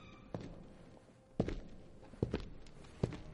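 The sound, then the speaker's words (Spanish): Footsteps of a henchman carrying two submachine guns as he walks through a parking garage: a few slow, heavy footfalls, fairly faint, each followed by a softer scuff. “El otro secuaz camina con dos metralletas.”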